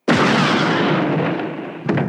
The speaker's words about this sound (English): So Han's blaster is a mix between a mortar firing mixed with a ricochet of a pistol. And the explosion of Greedo is another sound.